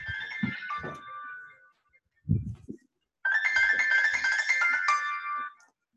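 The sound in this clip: A mobile phone ringtone plays a bright electronic melody in two bursts separated by a short silent gap. A brief low thump falls in the pause between them.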